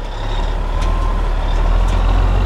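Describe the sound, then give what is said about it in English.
A dump truck loaded with lead-contaminated dirt drives away from a construction site where a new home is being built, its engine giving a loud, steady low rumble with a few faint hissing bursts. “a dump truck filled with lead-contaminated dirt is driving away from a construction site where a new home is going up.”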